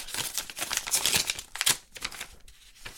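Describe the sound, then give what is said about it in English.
A paper letter envelope being opened: crisp crinkling and short tearing rips come in an irregular flurry at fairly low volume, with a brief lull before a final rustle, and no talking. “this is exciting. I don't get a lot of letters from the inside. And so I'm gonna go ahead and open this up.”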